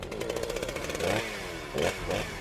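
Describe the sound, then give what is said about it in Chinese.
An assault boat's engine is started with a pull cord. The motor clatters and sputters into life in a few rough, revving bursts, with its pitch swelling and dropping. “严福瑞听到了引擎拉绳的启动声”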